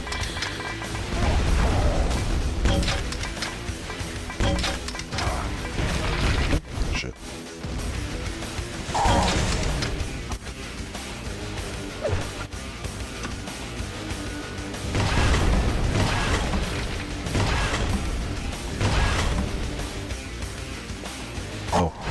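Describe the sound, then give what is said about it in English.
Rocket explosions in a video game: dense, loud crashing and booming bursts that recur over a constant layer of clattering mechanical noise, with no clear pauses between the blasts. “I guess I fucking just killed him with those rockets.”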